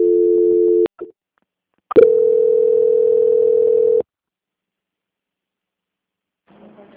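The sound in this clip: Telephone line tones during a call transfer: a steady electronic tone, a click, then a longer, louder steady tone lasting about two seconds, followed by silence and a faint murmur at the end.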